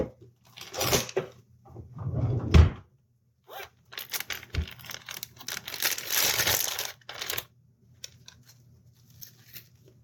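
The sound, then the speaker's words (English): A drawer shuts amid household handling noise: rustling, crinkling and scraping bursts with one sharp, low thud early on, then a longer stretch of shuffling clatter that fades into a few faint taps. “And I just shut that drawer I meant to open.”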